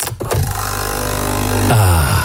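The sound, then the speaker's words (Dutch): A Nespresso machine brews a Nescafé Roastery capsule with a loud, steady mechanical buzzing drone whose tone shifts shortly before the end. “Dat is het geluid van de nieuwe Nescafé Roastery voor jouw Nespresso-machine.”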